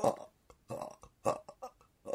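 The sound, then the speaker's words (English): A human voice imitates a man burping in a string of croaky, belch-like grunts, uneven in rhythm and length, quiet overall with short pauses between bursts. “So I presume he was burping, but while he was talking”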